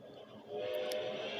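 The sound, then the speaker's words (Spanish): A train sets off with a faint, steady rumble and a sustained tonal hum that grows louder partway through. “Arrancó el tren.”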